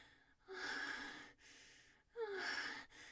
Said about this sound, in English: I can hardly catch my breath. I almost feel like I'm gonna pass out.